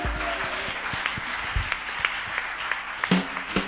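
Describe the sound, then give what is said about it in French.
Congregation applauding during a church service, dense clapping that runs steadily throughout with a few sharper claps standing out near the end. “Acclame encore le Saint-Esprit.”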